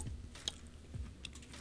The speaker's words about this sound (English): So we're going to take a bite. We're going to try it.